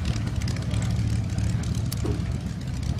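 A Spitfire taxies with its engine running, a steady low piston drone and propeller rumble holding an even loudness throughout.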